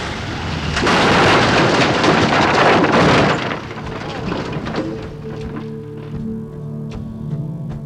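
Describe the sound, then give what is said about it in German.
Dramatized crash landing of a propeller plane: a loud, broad roaring crash lasting a few seconds, then dropping to a lower rumble with a steady tonal hum and scattered clattering knocks. “Dann die Bruchlandung.”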